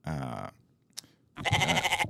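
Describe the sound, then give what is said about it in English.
Sheep bleating: two loud, wavering harmonic bleats separated by a pause of nearly a second, with a brief sharp click in the quiet gap. “There was a sheep.”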